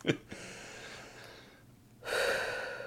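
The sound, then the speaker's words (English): A deep breath: a sharp, gasping inhale at the start, followed by a long, loud, airy exhale toward the end, with no talk over it. “Hold on. I need a deep breath.”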